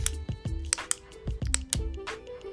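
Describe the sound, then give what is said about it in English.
Pen clicking, the sound of boredom in a tense silence: several sharp, brief clicks at irregular intervals, each a crisp, dry snap. “When you're in a like a difficult situation and there's all this silence, this is exactly what you want to avoid hearing.”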